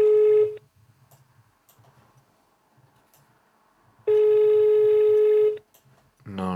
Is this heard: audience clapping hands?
no

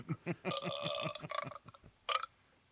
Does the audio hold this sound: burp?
yes

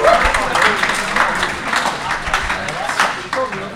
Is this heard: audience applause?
yes

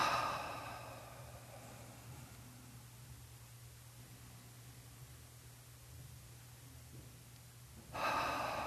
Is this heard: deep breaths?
yes

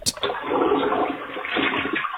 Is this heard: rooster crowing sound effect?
no

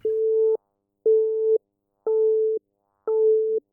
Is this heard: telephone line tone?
yes

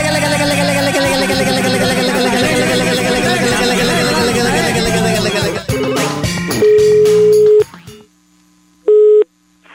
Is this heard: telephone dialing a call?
yes

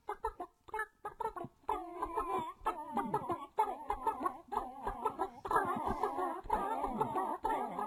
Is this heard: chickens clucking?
yes

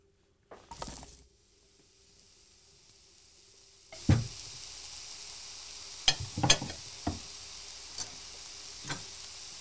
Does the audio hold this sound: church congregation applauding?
no

